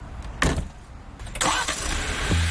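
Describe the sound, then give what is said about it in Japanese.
A Jeep Wrangler engine starts: a sharp burst, then a second surge that settles into a steady, loud running rumble for the rest of the short moment. “まずはジープラングラーに乗って地元を走ります。”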